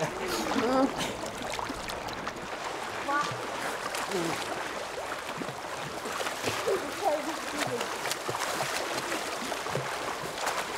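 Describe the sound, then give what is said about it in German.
Splashing water as people play in it, a continuous sloshing, rushing wash with high voices calling out over it at several points. “ihr sollt nicht so planschen.”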